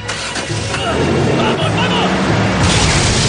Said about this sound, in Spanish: Huyen del lugar justo cuando una explosión destruye la casa al completo.